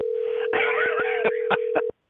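A telephone dials out over a steady dial tone, with a few short, sharp beeps and clicks breaking through before the line cuts off abruptly near the end.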